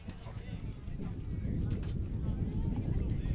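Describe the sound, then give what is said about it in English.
Wind buffets the microphone on an afternoon at a baseball game, making a steady, low, rumbling roar that builds slightly and then holds for the whole clip. “So the wind is pretty active here this afternoon, as you can hear.”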